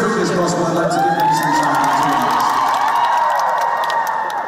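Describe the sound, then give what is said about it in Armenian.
Audience cheering and applause as children and Queen guitarist Brian May meet on stage, a loud, sustained roar of whoops and high children's shouts over steady clapping. “Երեխաների և Brian May-ի առաջին հանդիպումն այսօր հենց բեմում կայացավ, մի քանի մետրի վրա, առայժմ ծափային ողջույններով։”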